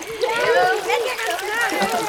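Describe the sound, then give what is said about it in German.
Children splash water with their legs while sitting at the pool edge during a swimming lesson, a soft sloshing and splattering mixed with children's voices and talk throughout. “Und jetzt patscht mal alle ordentlich mit den Beinen im Wasser rum.”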